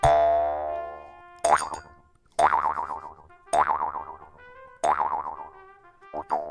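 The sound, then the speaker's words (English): Resonant twangs of a jaw harp, its pliable metal strip plucked while held against the mouth, come as a few separate boings. Each boing has a wobbling, wah-like tone and follows an opening sustained metallic ring. “It's a little piece of metal, right, that you stick over your mouth, and it has a little strip of metal that's pliable, and it bounces back and forth.”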